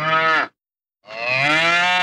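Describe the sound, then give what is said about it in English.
A cow in a field mooing twice, each a loud, sustained low call, separated by a brief silence, with the second moo longer than the first. “It isn't a bull, it's a cow. Cows aren't dangerous.”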